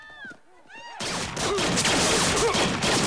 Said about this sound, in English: Running for the escalator, Piper pumps Schiller with bullets.